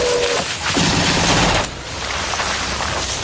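Gun turret fire: a loud, dense stream of rapid crackling blasts that barely lets up, briefly dipping in intensity midway.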